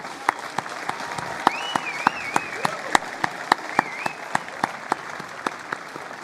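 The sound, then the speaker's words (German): An audience at a Pentecost Sunday church service breaks into lively applause, with many crisp individual claps standing out above a steady wash of clapping. “Ich finde, wir können für uns alle einmal richtig laut applaudieren.”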